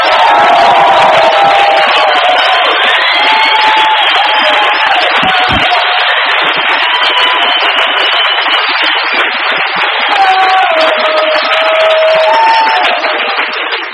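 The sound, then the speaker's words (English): A crowd at an AA gathering cheers, whoops and applauds as a speaker walks on, a loud unbroken roar lasting the full length, with a military march tune faintly audible beneath it. “I don't know if you know the name of the song they played.”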